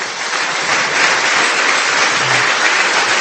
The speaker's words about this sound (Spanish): Den un fuerte aplauso al Señor.